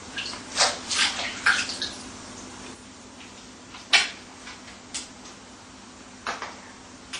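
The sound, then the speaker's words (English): Running water splashes as salad is washed under it, coming in several uneven bursts of swishing and dripping, fairly faint, with no voices. “And we wash the salad.”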